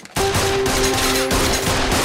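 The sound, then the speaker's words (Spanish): Gunfire erupts after a brief quiet moment: many loud shots in rapid succession form a continuous burst that lasts to the end, with no voices. “¿Quién le disparó?”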